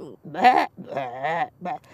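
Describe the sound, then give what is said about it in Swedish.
A sheep bleats from inside a sack: a few nasal, wavering bleats, the middle one longest and steadiest, fairly clear and without other talk. “Jag har fåret där i säcken.”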